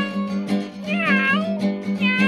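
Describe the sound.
Cat meowing in a few drawn-out, wavering cries that rise and fall in pitch, loud and close together with no talking.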